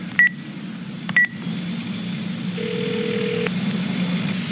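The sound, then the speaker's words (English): Telephone tones as a phone calls a number back: two short, high beeps about a second apart, then a longer steady low tone, all faint over a constant background hum. “Let me call the number back just to be sure if it's really who I think it is.”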